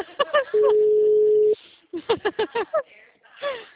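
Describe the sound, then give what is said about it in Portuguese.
A telephone tone after a dropped call: one steady, mid-pitched tone lasting about a second, with people talking just before and after it. “desculpa, a ligação caiu, tá?”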